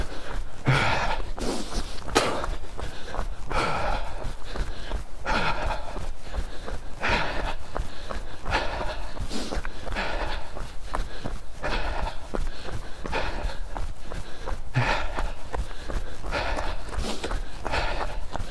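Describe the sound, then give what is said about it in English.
Steady, rhythmic footfalls of a lone runner on a loose-surfaced forestry vehicle track through a wood at night, continuous and fairly loud against a constant rushing background. “this is one of my more stupid runs in the dark by myself in a wood in the middle of fucking nowhere”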